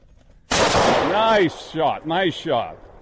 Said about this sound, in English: Nice shot. Good job waiting on it to come out into the open there, too.